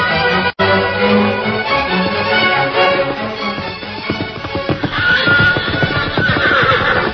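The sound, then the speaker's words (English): A wild outlaw stallion neighs and whinnies while plunging and fighting the ropes that bind it. Loud, shrill cries rise over clattering hooves, with no talk. “With the outlaw stallion plunging and fighting the ropes that bound him”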